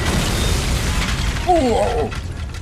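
A grenade set off by a tripwire explodes in a heavy, sustained roar of rumbling, crackling noise that fills the whole clip, with a slight surge near the middle before it slowly eases.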